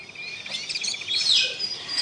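Birds chirping and tweeting on a sunny day with flowers and butterflies about: quick, high, bright calls repeating in a light, steady patter, fairly faint and with no voices.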